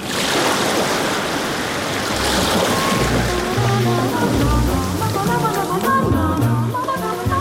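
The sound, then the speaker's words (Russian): Water washes at a lake in Lithuania, a loud, continuous sloshing and lapping over a low rumble. “Литва. На озере.”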